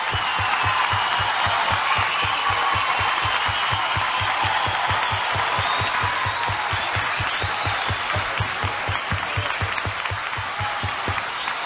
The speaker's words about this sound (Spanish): Aplauso para ella, muchas gracias.